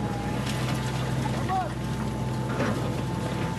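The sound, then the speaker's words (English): A huge orange excavator digging through a mountain of heavy rubble from a destroyed five-story apartment building in Beit Lahia gives off a steady, low engine drone. No distinct crashes stand out from the continuous rumble. “This machine is digging through a mountain of heavy rubble in the destroyed town of Beit Lahia, a five-story apartment building destroyed in an Israeli attack.”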